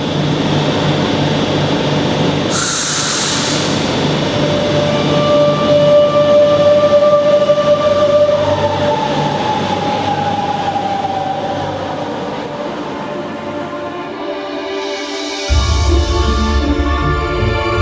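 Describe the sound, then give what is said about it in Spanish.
A metro train rumbles loud and steady, with a whining mechanical hum and a thin high squeal running over the roar. Near the end the deep rumble drops out briefly, then returns. No voices are heard. “Cuando llegue el próximo metro, sube rápidamente a él. No es un metro convencional, pero tú sube a él, sin dudar.”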